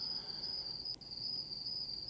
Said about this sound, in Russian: И от этого ночного неба, и от мирного пения цикад чувствовали себя в безопасности.